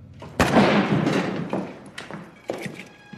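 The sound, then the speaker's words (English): A gunshot in a played recording of a tense street confrontation: one loud, sharp bang with a decaying noisy tail, followed by a few softer thumps. “Then he pulled the gun out and shot him, bro.”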